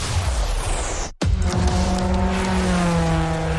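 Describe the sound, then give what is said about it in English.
Race cars speed around a track on the final lap at nearly 60 km/h. Loud, continuous engine roar breaks off for a moment, then returns as a steady, humming drone. “we are coming off turn two with the final lap, barely inches separating these vehicles from the wall. Blind turns at nearly 60 kilometers per hour.”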